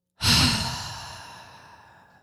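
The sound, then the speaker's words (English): A deep, breathy exhale, like a long sigh, starting sharply and fading gradually over about two seconds, heard alone with no voices. “Let's just breathe together for a second. I want to encourage you right now. Deep breath in and out.”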